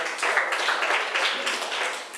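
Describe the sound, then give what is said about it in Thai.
Students clap together for a classmate in class, a dense, even patter of many hands that holds at a steady level for about two seconds with no voices over it. “นักเรียนเก่งมากปรบมือให้เพื่อนหน่อย”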